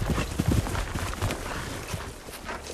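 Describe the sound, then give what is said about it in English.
Hoofbeats of a few horsemen's horses galloping forward across a field, a run of irregular low thuds that is fairly loud at first and then eases to a steadier, softer patter. “A few horsemen break their ranks and gallop forward.”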